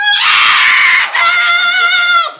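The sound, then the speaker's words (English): A woman screams after being freed from a cocoon: one loud, sustained, high-pitched cry, briefly broken near the middle, then carrying on before trailing off. “She instantly started screaming and pounding me with her fists.”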